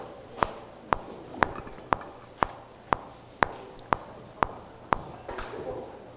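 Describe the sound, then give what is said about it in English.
Steady clicks from a GarageBand metronome while a sermon is being recorded: ten sharp, evenly spaced ticks about half a second apart, followed by fainter low rustling. “That is the metronome on GarageBand as you're trying to record the sermon, in case you were wondering what that sound was.”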